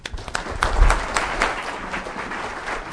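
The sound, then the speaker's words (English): An audience applauds to welcome a professor before his talk, a dense, steady clapping that carries on evenly for the whole stretch. “Please help me welcome the very distinguished Professor Timothy Wilson to the More Than a Score audience.”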